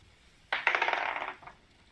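A die rolled during a tabletop role-playing game: a sudden clatter opens about a second of fast, bright rattling that fades away, heard on its own against quiet.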